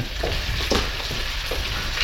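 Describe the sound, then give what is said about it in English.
Sliced or crushed onion and a clove of garlic fry in an oil pan, giving a loud, constant sizzling hiss with a few soft bursts from stirring. “So in the oil pan, you have your onion and your clove of garlic. That's just sliced up or crushed, doesn't really matter.”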